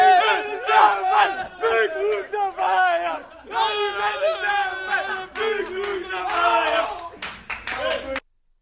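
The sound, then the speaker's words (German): Players celebrate loudly in the SV Werder Bremen dressing room, with sustained shouting, chanting and cheering voices and bursts of clapping, ending abruptly. “Ja, ausgelassene Freude hören wir da in der Kabine des SV Werder Bremen.”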